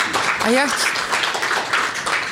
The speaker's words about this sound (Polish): Podziękujmy Pani redaktor gromkimi oklaskami.